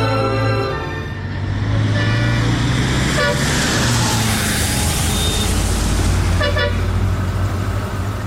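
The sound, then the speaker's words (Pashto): A car engine rumbles loudly and steadily as the vehicle pulls up and stops in a drama scene. Short horn toots cut through the engine noise. “استاد موټر دې لکچن دې ته ودراوه.”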